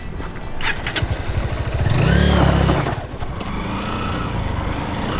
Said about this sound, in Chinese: 你摩托车声音太大了，马会惊着的。